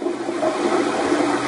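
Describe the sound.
Mock urine stream sound effect: a steady, unbroken rush of splashing water lasting just over a second, heard alone without voices.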